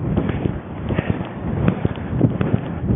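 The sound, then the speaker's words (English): Footsteps run on dry sand on a beach between two bays split by a breakwater, as a steady stream of soft, muffled thuds under constant gusting wind noise. “I'm running on the dry sand now between two beaches.”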